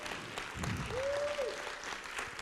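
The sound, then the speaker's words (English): Applause from an audience at a prayer service, a steady round of clapping that holds at an even level through the whole clip. “let's give the Lord the best round of applause that we've given him”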